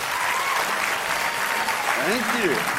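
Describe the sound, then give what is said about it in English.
An audience in Sydney breaks into dense, steady applause to welcome a speaker onto the stage at a presentation, the clapping continuous throughout with faint voices mixed in. “Let's put our hands together for Don Tolman.”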